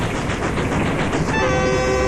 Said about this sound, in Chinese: 火车载着娘儿仨向省城驶去